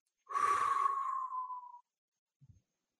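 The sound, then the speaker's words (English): One long, breathy exhale pushed out through the mouth, fairly soft and steady, fades out after about a second and a half and is followed by a brief faint rustle. “So exhale all the breath out of your mouth.”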